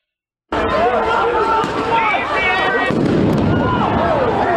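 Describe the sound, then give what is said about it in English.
Police flashbang grenades going off during a street clash with protesters: a few sharp bangs punch through a loud, continuous wash of crowd noise and shouting voices. “Police firing flashbangs now.”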